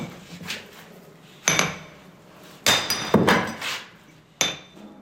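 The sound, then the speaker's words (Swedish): Sharp, ringing blows of a large chisel struck against the side of a roughly 30-kilogram limestone block to knock off sizeable chips, a few loud separate impacts with quieter scraping between. “Han slår på sidan av stenen med en stor mejsel så att rätt stora bitar far bort.”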